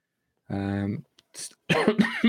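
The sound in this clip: A single short cough breaks in between vocal sounds, followed straight away by someone talking.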